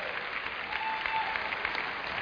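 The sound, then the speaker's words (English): Congregation applause for the worship team at a church service: dense, steady clapping that holds at a moderate level for the whole stretch, without a clear peak or fade. “Let's give this worship team a good round of applause.”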